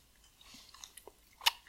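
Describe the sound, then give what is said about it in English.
Chewing on Twizzlers licorice candy: a few soft, wet bites and mouth sounds, ending with one sharper, louder bite. “You gotta try the Twizzlers, bro.”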